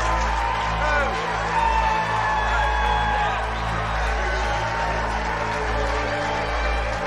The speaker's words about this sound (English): Father unclips his microphone, then stands and waves to the cheering crowd before turning back to shake Sam's hand.